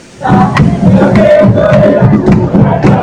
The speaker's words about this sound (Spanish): Pues continuamos acá en medio de Times Square. Esto es una gran fiesta la que se está dando aquí en este lugar. Y bueno, como pueden escuchar,